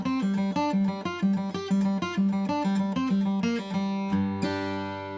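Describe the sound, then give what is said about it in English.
A guitar plays a fast single-string run. Each fretted scale note is pulled off and followed by an upstroke on the open G string, giving a steady, bouncing alternating rhythm that ends on a sustained, ringing note. “And all I'm doing is pulling off of the scale note and then following through with an upstroke on the open G string. It's gonna sound like this.”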